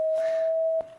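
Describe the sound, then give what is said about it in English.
Steady electronic sine tone from a color sensor linked to a chip at the back of the head, the tone for purple. One pure mid-pitched note holds evenly for about a second before cutting off. “this is the sound of purple.”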